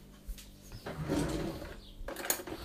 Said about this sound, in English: I'm just about to get my small Kit Kat mug and a teaspoon